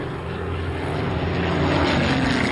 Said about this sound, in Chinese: 英国喷火式战斗机飞过桥梁查看他们的情况